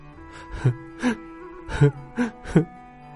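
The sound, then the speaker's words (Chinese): A younger brother cries in a series of short, breathy sobbing gasps that come at uneven intervals, each catch of breath rising out of quiet. “想到哥哥心太狠，连野兽都不如，弟弟忍不住哭了起来。”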